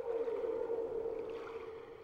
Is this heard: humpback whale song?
yes